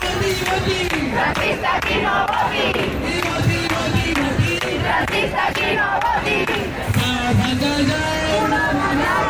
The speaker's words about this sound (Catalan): És el so de la mobilització en record de la Mari Carmen, la dona de 87 anys a la que un fons voltor va privar del seu desig de morir-se a casa seva,